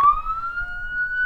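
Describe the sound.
A police patrol car siren sounds on the streets of the Guadalajara metropolitan area as one loud, sustained wailing tone that glides slowly upward over just over a second, alone, with no voices.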